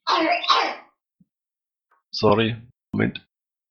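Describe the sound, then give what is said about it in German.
A small child coughs in three short bursts: a breathy first cough, then after a pause two harsher, voiced coughs close together. “Kleiner hat gehustet, deswegen musste ich unterbrechen.”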